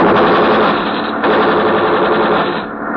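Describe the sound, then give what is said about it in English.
Sustained rapid gunfire, fired as warning shots in front of a man, forms a dense, continuous, loud burst with no clear gaps between shots. It dips briefly around the middle and fades slightly at the end, with no voices. “Fire in more! We fire in front of him.”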